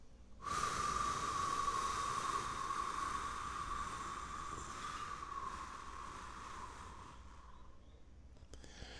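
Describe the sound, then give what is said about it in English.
Slow breath let out through the mouth: a long, soft, breathy rush of air lasting about eight seconds that starts firmly and gradually tapers off, heard on its own. “you would exhale, and it might sound something like this.”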